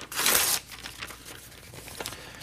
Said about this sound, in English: Well, I got the envelope, and let's let her rip.